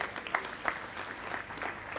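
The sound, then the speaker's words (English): Applause from a church audience giving a clap offering during a sermon, a steady patter of many hands with a few sharper bursts, muffled and lacking the high end. “Give him another clap offering.”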